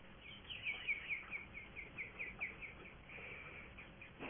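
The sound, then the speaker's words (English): Faint bird chirping at home, a steady string of short, high calls repeating over a soft hiss. “someone has a bird chirping in the background. That would be me, so.”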